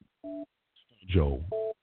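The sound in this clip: Telephone line tones on an outgoing call: two short, steady electronic beeps with a voice speaking briefly between them.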